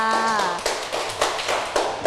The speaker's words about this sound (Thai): เพื่อนๆถูกต้องปรบมือให้กับเพื่อนค่ะ